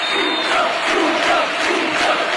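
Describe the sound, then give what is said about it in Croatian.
A stadium crowd in Seville roars a standing ovation as Luka Modrić comes off the bench into the match, a dense, loud wall of cheering and shouting that holds steady without a break from start to finish. “kad je Luka Modrić ušao u utakmicu sa klupe i cijeli stadion stao na noge. Ovo je snimka od sinoć sa stadiona.”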